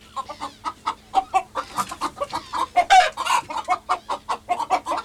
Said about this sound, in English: Number five was a hen.